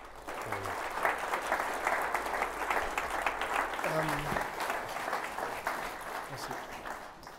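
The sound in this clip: Audience applause at a live book talk with an author, dense steady clapping that holds at an even, fairly loud level from start to finish.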